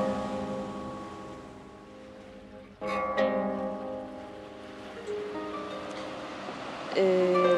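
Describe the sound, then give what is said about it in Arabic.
Sea waves wash in a continuous broad rush that swells gently at moments. A steady tonal hum runs underneath. “كنت أتمنى تكون معاي هون تشوف البحر زي ما أنا شايفه، وتسمع الموج زي ما أنا سامعه.”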